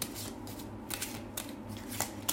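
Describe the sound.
A deck of playing cards being shuffled: a few brisk papery riffling bursts with short pauses between them, fairly faint and with no talking.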